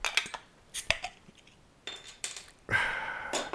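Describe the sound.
A Great Lakes Brewing Company beer, 6% alcohol and 37 IBUs, is opened: a few glassy clinks and clattering taps come first, then a sustained, bright fizzing hiss carries to the end.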